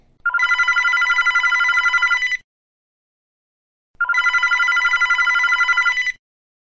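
A telephone rings with an incoming call, giving two long, loud electronic trilling rings of about two seconds each, separated by a silent pause, with nothing else heard.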